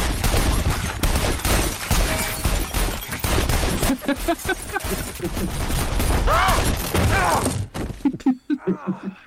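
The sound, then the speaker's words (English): Gunfire rattles through a video game: many sharp, loud shots in rapid bursts and fusillades, tapering into a few scattered, quieter pops at the end. “We're shooting.”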